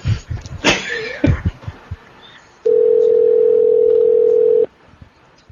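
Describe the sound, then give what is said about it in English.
Telephone tone while a conference call is being dialed: a loud, steady single-pitched tone holds for about two seconds, preceded by some brief soft rustling and handling noises. “It's dialing.”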